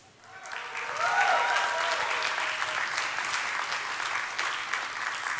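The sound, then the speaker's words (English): An audience claps at an evening church service. The applause swells over the first second into a dense, steady roar of many hands that holds to the end. “If you're happy to see yourself here, you can clap better than that.”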